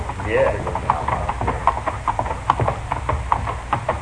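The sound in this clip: The hooves of horses carrying riders clip-clop in a steady, continuous rhythm. The many sharp hoofbeats stand out over a low, rumbling background.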